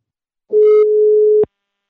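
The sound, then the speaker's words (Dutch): A telephone ringing tone sounds as a call is placed: one loud, steady, pure mid-pitched tone lasting about a second, cutting off abruptly into silence. “Ik ga hem nu bellen.”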